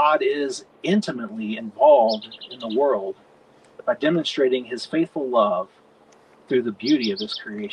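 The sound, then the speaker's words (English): Birds chirp outdoors in short, high bursts that sit faintly beneath steady talk from a speaker throughout. “what a great place to think about the beauty of creation than to be here and to hear the birds chirp”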